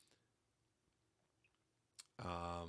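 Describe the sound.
Computer mouse clicks to open more text: a few short, faint, sharp clicks over near silence, the clearest just before a voice begins speaking.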